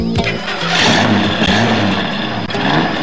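An old car's engine cranks but fails to start: a loud, continuous, rhythmic churning that keeps grinding without catching. No voices accompany it.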